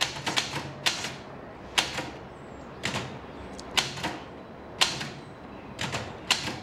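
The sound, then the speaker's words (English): Typewriter type bars striking the page, many sharp, crisp clacks in an irregular typing rhythm, moderately loud with short pauses between bursts and no voices. “The typewriter's black ink ribbon jumps up and down as the lettered type bars strike the”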